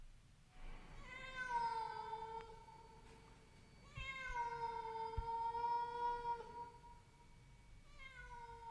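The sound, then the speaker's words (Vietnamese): A cat meows mournfully from the roof space above a sleeping man's head: three long, drawn-out, wavering cries separated by short pauses. The last cry starts near the end and is cut off. “Tiếng mèo kêu não lòng.”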